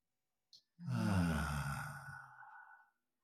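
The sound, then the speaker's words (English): A deep breath drawn and released as a long, audible sigh, about two seconds, voiced and breathy and gradually fading, with a tiny click just before it. “And then we take a deep breath together.”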